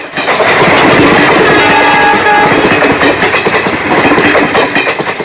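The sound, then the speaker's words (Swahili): A train's engine and wheels clatter over the rail joints in a loud, continuous rumble with a busy rhythmic clack throughout. Brief thin tonal whines rise above the noise. “alivutiwa na sauti ya injini ya mashine ya treni na matalume ya reli jinsi yanavyosigana.”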